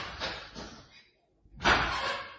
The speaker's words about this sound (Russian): Но вы не думаете, что, закрыв дверь, напугаете меня? Что вы, что вы? Что вы, я закрыл дверь только ради нашего делового разговора.